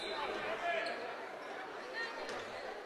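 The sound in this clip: A basketball is dribbled on the court during a girls' high school game, repeated bounces under continuous play-by-play commentary and faint crowd chatter.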